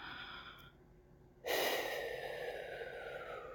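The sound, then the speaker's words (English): A deep breath taken during a guided relaxation and back massage: one sudden, breathy draw of air that starts sharply and carries on as a long, soft, airy hiss, quiet and alone. “Okay, deep breath again. Breathe with me.”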